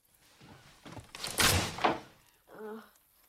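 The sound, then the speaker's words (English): A cabin door is closed quietly, giving a soft muffled thunk with a brief rush of noise, followed by a short faint voice; the whole passage is low in level. “He quietly lets himself in and closes the door behind him.”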